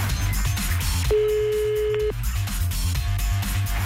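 A ringback tone on an outgoing phone call sounds once, a steady mid-pitched beep lasting about a second, over a continuous rhythmic background bed.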